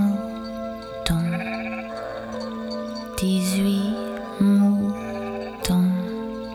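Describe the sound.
Sheep bleat in a series of short, wavering, nasal cries, several in a row with pauses between. They sound over a steady, faint tonal background.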